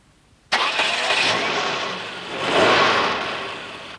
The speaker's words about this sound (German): Das ist ein Sportwagen. Bitte. Ist der Porsche ein Sportwagen?